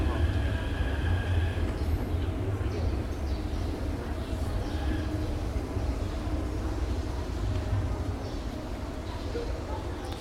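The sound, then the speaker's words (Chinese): A metro train pulls into a station platform, a steady low rumble and rolling noise that stays fairly even throughout. “淡水捷运站的月台上，此时呢车子即将进站”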